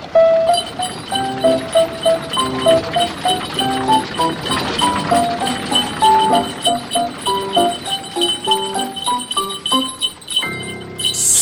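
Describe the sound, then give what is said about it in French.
A cab horse trots with hooves clip-clopping in a steady, even rhythm of many crisp knocks, with ringing tonal notes running alongside. “Au trot, au trot, au trot. Faut pas fatiguer mon pauvre canasson.”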